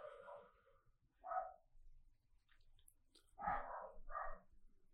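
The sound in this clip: A dog barks faintly in the background, a few short, mid-pitched barks spaced apart over low household noise.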